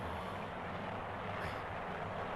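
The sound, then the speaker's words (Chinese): An agricultural drone sowing rice over a field gives off a faint, steady whirring drone that holds at an even level throughout. “这是我用手机拍的，小米啊是用无人机种稻的，再也不是他父辈那样面朝黄土背朝天了。”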